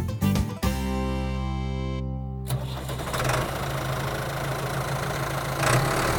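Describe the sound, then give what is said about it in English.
A tractor engine with a smokestack lid chugs loudly. A few sharp knocks at the start give way to a steady humming drone, which then turns into a rougher, noisier roar. “Dad drove the tractor into the yard. The lid on the tractor's smokestack rattled when it chuffed and chugged to a stop.”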